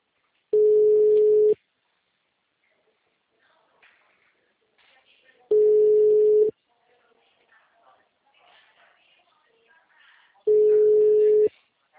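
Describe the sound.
Ringback tone of an unanswered telephone call: three steady one-second beeps on a single mid-pitched tone, spaced about five seconds apart, with faint noise in the gaps.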